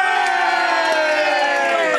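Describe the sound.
Loud studio audience cheering for a contestant in a radio DJ battle. Many voices shout and whoop together in one sustained, even roar with no pauses.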